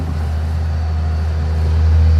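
A forest harvester machine driving across a field, heard as a steady, low engine drone with a deep hum that swells slightly louder toward the end, with no talk.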